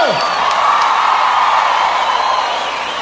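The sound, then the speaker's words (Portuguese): An audience clapping and cheering after a performance, a loud, sustained crowd roar with high whoops and cries, strongest at the start and easing slightly toward the end. “Nós batemos palmas pra vocês.”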